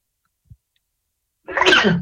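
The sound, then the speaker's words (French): A single loud sneeze bursts out after near silence, broad and breathy, and runs to the end. A tiny faint click sounds earlier. “excusez-moi, j'ai éternué”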